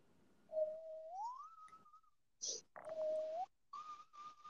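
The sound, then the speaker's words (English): A person whistles the eerie opening music of a 1984 film, alone: sustained pure tones with slow upward pitch glides, interrupted by a short breathy burst, thin and quiet overall. “Is that you whistling? Yeah. Oh, wow. That sounded like an actual horror sound effect.”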